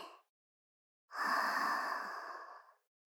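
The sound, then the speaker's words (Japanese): Slow, deep breathing during a guided relaxation exercise: a brief breath fragment at the start, then one long, airy, breathy exhale lasting about a second and a half, with no talk. “ゆっくりと大きな深呼吸をしてください。さあ、ゆっくり吸って、ゆっくり吐いて、”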